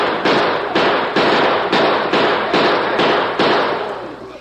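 Gunshots ring out during a Western shootout as a posse fires at a fleeing rider. Eight loud, sharp cracks follow one another at a fairly steady rhythm, each leaving a short ringing decay.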